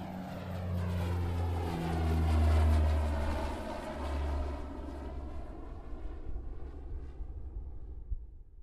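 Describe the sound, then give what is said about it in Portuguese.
A propeller airplane taking off, its engine droning loudly with a swelling roar early on, then the engine tone sliding downward in pitch as the sound thins and fades. “Encontrem as suas poltronas Sentem-se, acomodem-se, apertem os seus cintos e preparem-se para a decolagem.”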